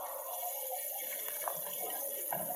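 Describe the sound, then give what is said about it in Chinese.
Water running from a shower, a steady continuous hiss of spray that holds an even level throughout, with no talk over it. “我听不清，我洗澡呢”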